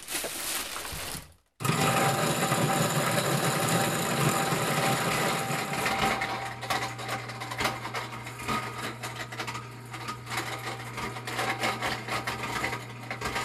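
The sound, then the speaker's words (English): A Champion juicer with a heavy-duty motor and grain mill attachment grinding dried corn: after a brief cut-out near the start, a loud, continuous motor whir with gritty grinding texture, settling into a steady hum. “They have a grain mill attachment for their Champion juicer. It's one of those classic juicers with a heavy-duty motor. I'm going to grind it twice because you have to crack it first.”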